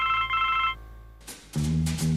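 A mobile phone ringtone chirps in quick pulsed bursts of bright electronic tones, loud and alone, for under a second before it cuts off.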